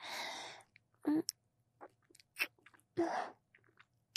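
Wet kissing sounds with tongue, soft and quiet. A few smacking, slurping bursts and small clicks are separated by near-silent pauses, with a breathy sound at the start.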